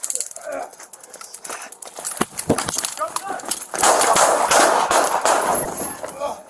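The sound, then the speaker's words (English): A single gunshot fires during a police confrontation with a person holding a knife. One sharp, loud crack stands out against a noisy background, with voices present. “one shot's fired. Start med aid.”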